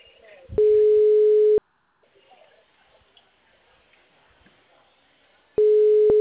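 A telephone line tone on a call that seems to be hanging up: two long, steady, mid-pitched beeps, each about a second, separated by several seconds of faint low noise.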